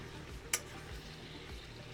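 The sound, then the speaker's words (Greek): Ingredients sizzle softly while being sautéed in a pan before hare is added: a low, even hiss throughout, broken by one sharp click early on. “Περιμένουμε να κάψει λίγο. Ωραία, περιμένουμε να κάψει, να τσιγαριστούν για να συνεχίσουμε μετά με τον λαγό. Το σοτάρουμε λίγο.”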